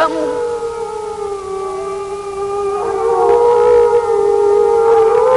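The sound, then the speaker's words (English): Wolves howling in the wild in Canada and Alaska: several long, eerie, overlapping tonal howls hold steady, sustained pitches. Another voice joins partway through, and the chorus grows slightly louder toward the end. “The sound that you are listening to is the actual recorded voices of wolves howling up in Canada and Alaska.”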